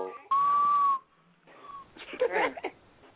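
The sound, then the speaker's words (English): A person whistles a loud, steady, high sustained note, then a shorter, fainter note at the same pitch after a brief pause. “Whoever's whistling is really trying it.”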